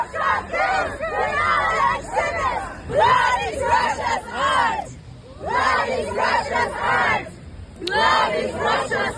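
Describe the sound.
Protesters shout and chant outside the Russian pavilion at the Venice Biennale. A crowd of voices rises in loud, rhythmic bursts separated by short pauses.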